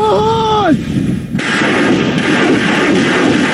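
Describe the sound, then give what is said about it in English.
Artillery firing at Russian positions: whistling tones curve downward, then a heavy blast bursts out and gives way to a loud, sustained rolling roar. “Further back, the artillery takes aim.”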